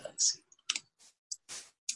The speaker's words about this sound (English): And then if you type in the word fictitious,